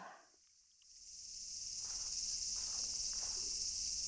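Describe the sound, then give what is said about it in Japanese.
Cicadas sing in summer heat: a shrill, continuous insect drone begins after about a second of near quiet, then holds loud and steady to the end. “いや、暑い暑い。 セミの声ってどうしてこう暑苦しいんだろうね。嫌でも夏って意識しちゃうよ。”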